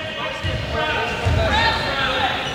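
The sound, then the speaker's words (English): Balls bounce in a gym amid a general cacophony. Thuds ring out within a dense, steady din of voices and crowd noise. “All sorts of whistles going off and balls bouncing. General cacophony.”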